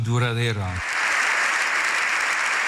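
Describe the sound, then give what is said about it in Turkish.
A standing ovation for Pope Leo XIV in the Spanish parliament: a voice speaks briefly, then dense, even applause from many hands takes over and holds steady to the end. “Silahla kalıcı barış tesis edilemez diyen Papa dakikalarca ayakta alkışlandı.”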